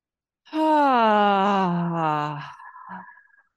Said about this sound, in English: Maybe breathing in just a little bit deeper this time. And maybe as you exhale, making louder sounds.